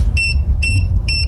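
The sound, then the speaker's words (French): A pet microchip reader, used to trace the owners of cats and dogs, sounds three short, evenly spaced, high electronic beeps over a low background rumble. “Ce que vous entendez, c'est un lecteur de puces pour retrouver les propriétaires de chats et de chiens.”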